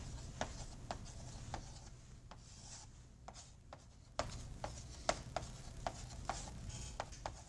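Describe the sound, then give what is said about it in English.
Writing notes by hand: many short, scratchy strokes in an uneven rhythm, quiet and alone over a low steady hum, with a brief lull before the strokes pick up again. “I'm writing stuff in notes.”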